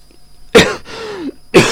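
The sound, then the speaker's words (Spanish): A man coughs twice, loud and harsh, about a second apart, with a drawn-out strained throat sound between the two coughs. “Estoy tosiendo realmente poco para lo que yo pensaba que debía toser.”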